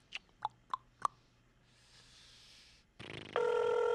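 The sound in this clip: Telephone call being placed: four short tonal beeps like dialing, a stretch of faint hiss, then a sustained telephone ringing tone starting near the end, quiet overall and heard without any voices.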